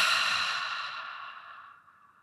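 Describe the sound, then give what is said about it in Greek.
A long, full breath out during a deep-breathing exercise: a soft, airy hiss that starts fairly strong and gradually fades away over about two seconds. “Άλλη μια φορά βαθιά εισπνοή, έκπνοη.”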